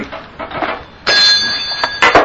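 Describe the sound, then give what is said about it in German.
A bell being moved by hand, with a few soft knocks and shuffles followed by a bright, sustained ringing tone and a couple more clinks near the end. “Wenn ich diese Glocke verrücke, dann steht sie hier und ist nicht mehr auf ihrem Platz.”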